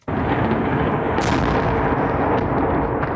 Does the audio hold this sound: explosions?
yes